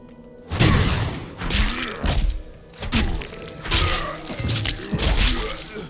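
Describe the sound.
Video game combat as a zombie is killed and split in half: a series of loud, heavy thuds and crunching, shattering impacts in quick succession, with no talk.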